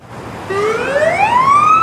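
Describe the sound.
An emergency vehicle siren starts partway in and sweeps steadily upward in a loud rising wail, over a constant low background rumble.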